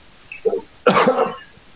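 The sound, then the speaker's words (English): A person coughs over a poor internet call: a small cough followed by a louder, harsher one, alone without talk. “Oh, do you have a cough as well?”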